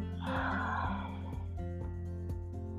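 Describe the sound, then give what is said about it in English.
Slow, deep breath in and out over soft, steady background music, a breathy rush of air that swells early and fades after about a second and a half. “When you consciously take a moment and you breathe in, so breathe in with me, and then breathe out.”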